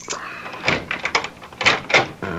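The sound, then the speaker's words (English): A key works a door lock, making several short metallic clicks and rattles in quick succession, with no voices. “You open the lock. Okay, here goes.”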